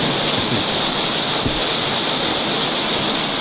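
Rain patters steadily in the background as a continuous, even hiss of dense drops, with no gaps and no voices.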